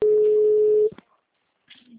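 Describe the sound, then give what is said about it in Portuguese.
A single steady telephone tone at a mid pitch, heard after a call drops. It lasts just under a second, then cuts to silence before a faint, brief noise at the end. “perdão, cliquei aqui no sistema, a ligação caiu.”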